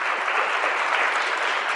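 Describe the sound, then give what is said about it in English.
An audience gives continuous, even applause, a dense wash of hand claps at constant loudness with no voices on top. “And if you would, put your hands together and welcome Brandy.”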